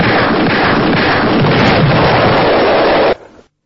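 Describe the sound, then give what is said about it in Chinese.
Cannons fire together from many warships surrounding a large ship, forming a loud, continuous, dense roar of blasts that cuts off abruptly near the end. “他召来了很多艘军舰围着大船同时鸣炮，”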